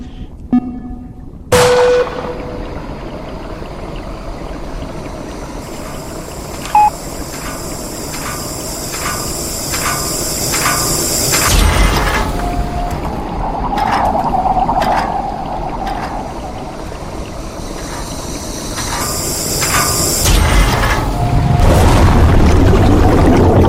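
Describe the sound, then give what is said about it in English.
Rushing, hissing water-like noise in a video game as the player is sucked into a drain, with sharp bursts near the start and a roar that swells louder toward the end. “You were killed by being sucked into a drain.”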